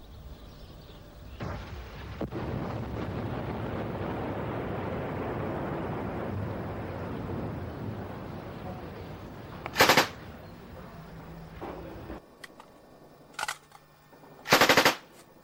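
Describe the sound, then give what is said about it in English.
Mortar fire striking a compound during an armed attack in hazy conditions: a long low rumble is followed by three sharp, loud blasts, with fainter crackles between them and no voices. “Through the haze we see in the distance, the Israeli compound come under attack from mortar fire.”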